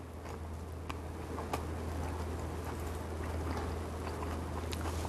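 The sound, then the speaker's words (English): Faint crunching bites and chewing of extra crispy, chewy food dipped in soy sauce and eaten with chopsticks: soft, scattered crackles over a steady low hum, with no talking. “I don't know if you guys can hear this, but it is extra crispy and chewy and so tender on the inside.”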